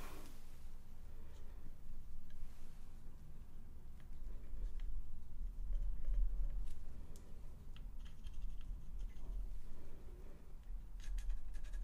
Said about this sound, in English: Okay, I'm just gonna draw a couple more dots, okay?